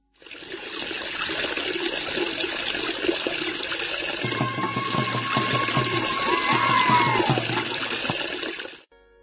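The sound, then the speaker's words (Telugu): Villagers fill drinking water from a tap in a tribal village. A steady stream of running water splashes and trickles throughout, moderately loud, and a low hum joins partway through before the flow stops at the end. “మంచినీళ్ళు పట్టుకుంటున్నారు.”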